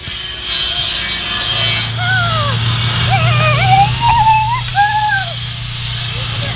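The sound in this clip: Woodworking noise from volunteers building wooden shelters for grazing sheep on the Mecon eco-grazing site, screwing on cladding: a continuous rasping, working sound that runs under ongoing speech.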